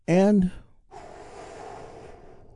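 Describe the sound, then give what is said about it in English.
A deep breath: a brief voiced tone, then a long, steady, airy whoosh of breath lasting about a second before it fades out. “I want you to take a big, deep breath. All together, here we go.”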